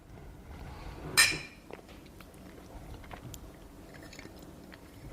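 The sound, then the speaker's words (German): A single bright clink of glasses raised in a toast over a kitchen pot of fruit punch made with cassis, a short sharp ring that fades into quiet rustling. “Jetzt sitzen wir auf einem Topf mit 4 Litern Bowle in der Küche. Und irgendwie hat unser Gast abgesagt. Ja, schade. Und stoßen mal an.”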